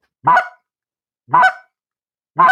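Three short, goose-like clucks from a hunting call, evenly spaced about a second apart, each a brief nasal honk of similar pitch and loudness, with silence between them.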